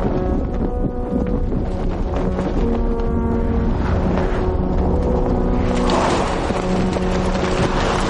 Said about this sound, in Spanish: un camión tipo tráiler avanza por una estrecha carretera en un amanecer. El viento mueve con fuerza una lona en la parte trasera.